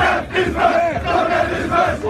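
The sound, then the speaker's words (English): Students shouting school cheers in a loud, dense mass of voices, rough, unison yells pulsing in rhythmic bursts with no separate talk. “The Covington kids shouted over them. Get this crack. With what they say were school cheers. Dozens jumping up and down.”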